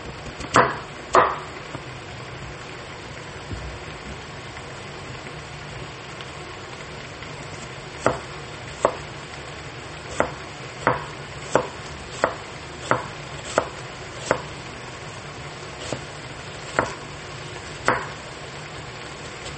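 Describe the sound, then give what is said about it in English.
Knife chopping a large onion on a board: a couple of sharp cuts, a long pause, then many crisp, evenly spaced chops in a steady rhythm, each a short bright knock. “Let's just chop this bugger.”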